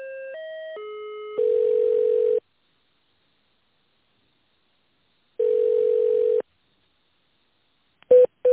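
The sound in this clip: Telephone tones while a business call is put through to a purchasing department: three short stepped tones, a long steady beep, silence, another long beep, then a couple of brief beeps at the end.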